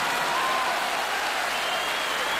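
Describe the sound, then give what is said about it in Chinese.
Dense, steady applause from a crowd fills the whole short stretch. No voices rise above it. “这掌声是送给每一个查分的考生的啊！”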